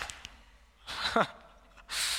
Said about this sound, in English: I want everybody to take a deep breath, first of all. One more for fun. With gusto.